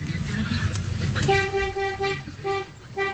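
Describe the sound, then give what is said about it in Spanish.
Deep truck horn of a double-axle truck, sounding several short, thick honks in a row with a low engine rumble underneath before they begin. “Este pito es más grueso. Ese sí, es como de camión, ¿no? Como de camión, a ver. Es un doble troque.”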